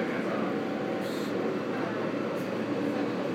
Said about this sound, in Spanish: ¿Cómo es el metro? A mí me recuerda un poco al de Barcelona en cuanto a anchura.